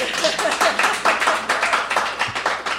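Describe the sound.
Audience applause at a live show: dense, steady clapping with a slightly pulsing rhythm, filling the whole clip with no clear break.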